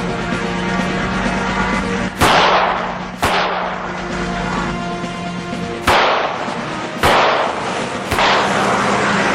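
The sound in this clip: Gunshots fired from a bus window during a chase: five sharp, loud cracks spaced unevenly over a steady low rumble, each dropping back quickly before the next, with no voices.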